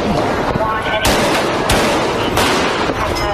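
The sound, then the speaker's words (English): Gunfire rings out during a shooting at the Trump National Hotel: a few loud, sharp shots crack over a constant, harsh background noise. “An exchange of gunfire right out of a Hollywood action movie.”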